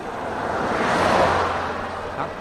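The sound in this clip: A car overtakes a cyclist on the road: a broad whooshing swell builds, peaks and then fades over about two seconds, with wind rushing across the microphone throughout.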